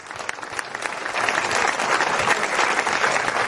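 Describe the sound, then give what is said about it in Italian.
Applause from an audience at a civic gathering where honoured guests are being thanked; dense, steady clapping starts somewhat lighter and swells to a fuller, sustained roar of hands with no speech over it. “e vi chiedo un applauso per Giovanni Melito Petrosino”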